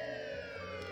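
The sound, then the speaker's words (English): Sirens sounding outside a house, a steady, sustained wailing tone that holds at an even loud level throughout the short stretch, with no voices over it. “you hear a noise you heard earlier, the noise of sirens outside.”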